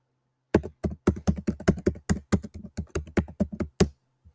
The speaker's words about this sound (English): I just typed in my password. I've typed in my password multiple times.